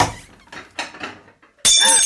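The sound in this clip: An old gold-decorated porcelain collector's cup from the GDR era falls and breaks: faint, scattered sounds give way to a sudden loud crash with bright ringing fragments at the very end.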